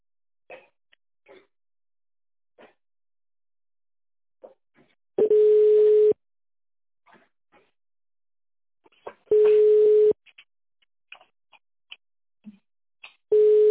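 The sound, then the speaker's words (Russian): Telephone line tones while a call is transferred: three long, steady ringback tones separated by silent gaps dotted with faint clicks and pops, the last tone cut short. “оставайтесь на линии, ваш звонок будет переведен на специалиста.”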